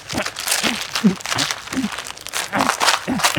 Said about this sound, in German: Sorry, aber wie sollst du jetzt das Buch zerrissen? Weil das nicht gut ist und du das nicht lesen sollst.